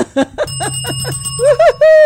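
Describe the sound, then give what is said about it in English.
A bell dings at an outdoor community block-party celebration, its sustained ringing tone running beneath short bursts of laughter and voices. “we definitely want to give applause and ding of the bell”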